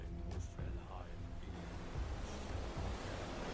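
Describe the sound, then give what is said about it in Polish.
Ocean waves wash against a creaking wooden longship in a steady, broad surf roar with wind noise throughout, loud and unbroken for the whole clip and no distinct creaks standing out. “Żeby słyszał, jak fale są rozdzierane przez skrzypiący drewniany statek.”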